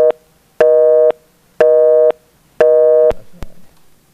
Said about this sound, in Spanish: A la hermana que vuelva a marcar otra vez, porque la llamadita como que se cayó, se determinó la llamada.